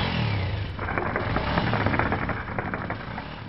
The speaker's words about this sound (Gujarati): આ મોટરસાયકલનું સાયલન્સર ત્યારે જ નીકળી ગયું હતું.